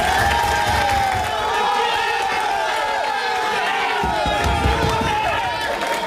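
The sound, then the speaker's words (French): French national football team players cheering and celebrating a win: loud, continuous shouting and chanting from many voices, sustained without pause. “Voilà la joie de l'équipe de France hier soir.”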